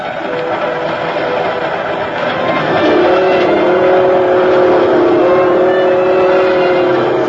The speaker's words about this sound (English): That sound is the most lonesome sound in the world. But maybe that's because I feel so alone on a train late at night.